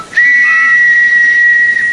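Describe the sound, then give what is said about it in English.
A whistle is blown once in a single long, steady, high-pitched blast that starts abruptly and holds an even, piercing tone to the end, with no voices or other sounds. “Now, where's my whistle?”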